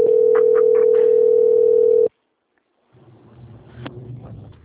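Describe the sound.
A telephone tone sounds on a bank customer-service call while it is transferred to quality control: one loud, steady pitch holds for about two seconds and cuts off abruptly, followed by a pause and then faint, uneven line noise.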